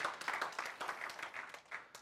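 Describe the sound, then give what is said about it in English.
Faint applause at a sermon: a short burst of steady hand clapping from a group, soft and even throughout. “That's good. That deserves applause.”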